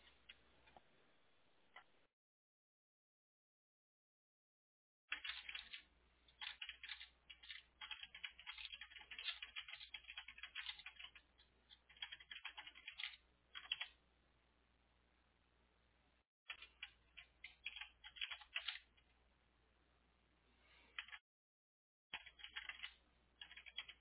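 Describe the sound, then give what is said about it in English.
Faint keyboard typing, many quick clicking keystrokes coming in bursts separated by short silent pauses. “Hold on, let me type all this out.”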